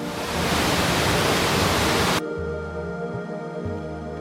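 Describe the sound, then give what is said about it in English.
Roaring water from a wide waterfall where a river splits and cascades over ancient volcanic rock: a steady, dense rushing noise for about two seconds that abruptly gives way to a quieter low hum. “White mist rises from a wide curtain of falling water, where a river splits and cascades over ancient volcanic rock.”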